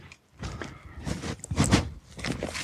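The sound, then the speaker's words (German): Footsteps crunch along a forest path beside a stream, arriving in a few short bursts of scuffing, rustling steps separated by brief pauses. “Und ja, ich werde jetzt einfach mal den Weg entlang gehen, bis ich mal ungefähr die 70 Meter habe.”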